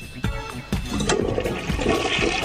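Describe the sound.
A toilet flushes in a loud rush of swirling, gurgling water that sets in abruptly, surges again a moment later and keeps roaring steadily to the end.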